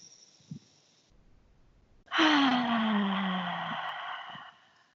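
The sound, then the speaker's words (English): A deep breath let out through the mouth: one long, loud, breathy exhale that rises suddenly after near-silence and slowly fades. “take a few deep breaths in.”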